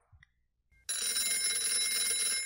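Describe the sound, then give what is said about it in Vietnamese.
Telephone ringing loud and sustained as a strange number calls again in the morning, starting abruptly after near silence and continuing unbroken to the end. “Tiếng chuông điện thoại lại réo lên bên tai.”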